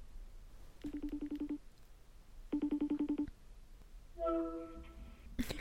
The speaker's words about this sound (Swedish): Ska vi testa att ringa dem på speaker